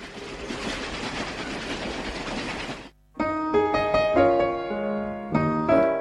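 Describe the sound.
A train sound effect for moving between train wagons: a dense rolling rumble for about three seconds, cut off abruptly and followed by bright melodic music.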